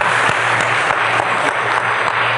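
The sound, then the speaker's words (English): An audience applauds to thank a speaker at a lecture, a dense, continuous, loud wash of clapping that holds steady for the whole stretch, with no voices over it. “Let's thank Dr. Meyer with a word of applause.”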